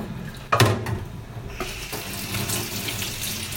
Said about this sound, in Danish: Nu skal lige vaske et skærebræt op.